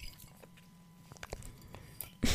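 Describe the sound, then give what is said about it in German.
A person takes a sip of a drink, making faint wet mouth clicks and small swallowing sounds in a quiet setting, followed by a sudden louder burst at the end. “Ich muss vorher einen Schluck trinken.”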